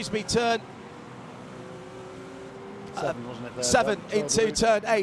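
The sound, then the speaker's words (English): BMW and Porsche sports cars battle through turn eight at Watkins Glen in a WeatherTech Sports Car Championship race. Their engines make a steady, fairly quiet drone beneath a commentator who talks over much of it. “the BMW and the Porsche, the German marks coming back to the front of the field. And there is the battle for the lead coming through turn number eight and in,”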